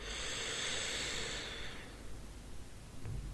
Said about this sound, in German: Und nimm ein paar tiefe Atemzüge hier tief, tief ein